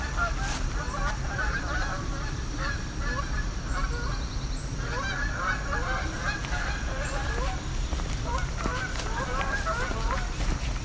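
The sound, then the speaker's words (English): Canada geese honk overhead, many calls overlapping in a continuous chorus above a steady background noise. “There's some Canada geese going overhead.”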